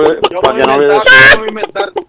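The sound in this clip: A chicken clucks in a quick run of short, choppy bursts, with one longer, louder squawk in the middle before the clucks resume.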